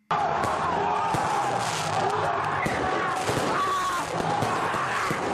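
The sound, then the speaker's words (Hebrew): Rioting football fans fire fireworks and pyrotechnics at police in France, a continuous roar of many sharp bangs, pops and crackles piling over one another without a break for the whole stretch. “מה שאתה שומע זה אוהדים מתפרים, יורים זיקוקים ושלל פירוטכניקות באנשי משטרה”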